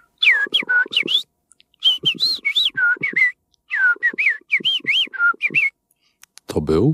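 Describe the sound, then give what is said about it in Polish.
A person whistles in imitation of a bird call, a simple modulated whistle in three quick bursts of high, rising and falling chirps separated by short pauses, with a brief lower voice at the very end. “Stąd się wziął ten prosty gwizd, który nauczyłem się modulować i to jest taka baza, do której później można dodawać różne dodatki, żeby to brzmiało bardziej realistycznie, a brzmi mniej więcej tak.”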